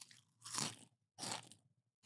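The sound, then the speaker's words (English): Crunchy chips eaten together with gummy pizza candy, a few loud crisp crunching bursts of chewing separated by short silences. “And we're gonna do the chips as a good night. Good night. Both together.”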